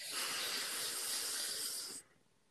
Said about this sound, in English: Okay, deep breath out. We should start our podcast like that. You were so calming. That was such a calming breath.